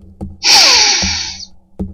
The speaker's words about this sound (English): Let's take a deep breath.